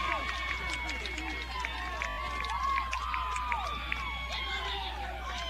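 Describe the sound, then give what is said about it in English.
A baseball crowd cheers a go-ahead two-run home run with a steady, dense roar, while an announcer talks over it throughout. “Boy, you could hear that by the crowd reaction, couldn't you?”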